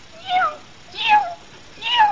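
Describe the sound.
Three meows from a cat in a story, each a drawn-out, fairly high, tonal cry with short quiet gaps between them.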